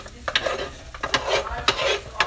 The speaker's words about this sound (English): Let me stir it up a little